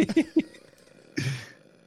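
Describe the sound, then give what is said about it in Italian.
A deliberate, controlled power burp from a person: a single short, rough guttural burst that follows a few brief vocal sounds. “questo, questo um, è il rutto più difficile da fare di tutti, secondo me, il rutto di potenza”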